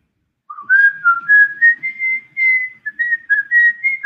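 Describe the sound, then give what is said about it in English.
A person whistles to imitate a whistle, producing a string of short, wavering notes that creep slightly upward in pitch, loud and alone after a brief silence. “when she finally did stab her, the clone fucking whistled.”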